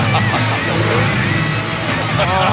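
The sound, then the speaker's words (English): A car engine revving hard, a loud, continuous roar that holds across the whole moment, with voices mixed in. “Let's hear it. Rev it up.”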